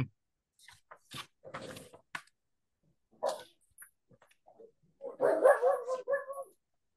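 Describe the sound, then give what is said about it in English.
A pet dog barks and yips in a run of irregular short bursts, spaced apart at first, then a louder, denser cluster of barks near the end, heard alone without talk. “Pardon my dog barking.”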